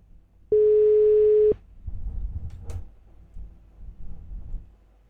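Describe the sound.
A single steady telephone beep, about one second long, sounds after a call has been cut off, followed by low, muffled rumbling and handling noise.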